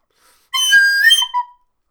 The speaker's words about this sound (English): And he whistles.